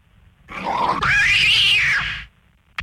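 A cat lets out a single long, loud meow, its pitch sliding up then arching back down over about two seconds, ending with a brief click.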